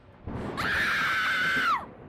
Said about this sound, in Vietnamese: Một tiếng thét thất thanh, tên cầm đầu bỏ chạy để mặc cho đồng bọn với nhát dao đoạt mạng.